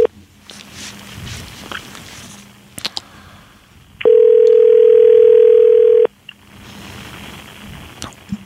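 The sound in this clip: A telephone dial tone heard while placing a call: a loud, steady, unbroken hum lasting about two seconds, set between quieter stretches of low background sound with scattered clicks and knocks.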